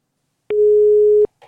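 A telephone line tone after a call is cut off: one steady, loud, mid-pitched tone holds for under a second, followed by a brief faint rustle.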